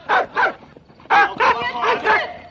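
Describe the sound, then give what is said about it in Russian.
A dog barks at a running man: two sharp barks, a short pause, then four more loud barks in quick succession. “Бежит Гаврила, на бомбараша лает собака.”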